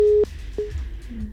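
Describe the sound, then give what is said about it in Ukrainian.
A telephone busy tone on a failed call-in connection to a radio station: two steady mid-pitched beeps, the first longer and louder, separated by a short gap and followed by faint low hum. “Щось у нас на лінії не виходить зв'язатися.”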